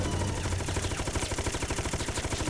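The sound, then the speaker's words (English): Rapid, continuous gunfire from a first-person sky-shooter video game, Sky Racer, pours out as a steady, fast stream of loud, dense shots with the fire button held down. “And then you get this goddamn Sky Racer, and it's like first-person point of view Sky Racer shooting left and right at shit coming at you. I suck at this. I just hold down spacebar and hope for the best.”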